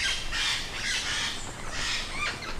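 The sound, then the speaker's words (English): Parrots squawking inside a netted flight cage: a dense, continuous wash of harsh, overlapping calls, fairly loud and unbroken from start to finish, with no voices. “Releasing this flock could boost the wild population of 200 parrots by more than 10%. They cling to the wire netting.”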